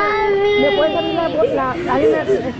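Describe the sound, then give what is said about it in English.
Children cry after being separated from their parents at the border under a zero-tolerance immigration policy, with wavering, high-pitched wails and whimpers and other voices mixed in. “with the sound of children crying after being separated from their parents ringing in their ears,”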